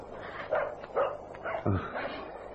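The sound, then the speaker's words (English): A small dog barks in a few sharp, yappy bursts spread across the moment, fairly faint against a hissy, noisy background with no one speaking. “It's a dog. A little dog barking.”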